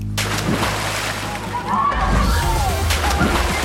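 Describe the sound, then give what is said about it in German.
Splash of someone jumping into cold water, with churning, sloshing water that swells louder partway through and keeps frothing to the end. “Für viele ist es tatsächlich dieser Sprung ins kalte Nass.”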